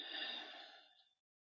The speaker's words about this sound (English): We will take 3 deep cleansing breaths to center ourselves in this moment. Deep breath in and out.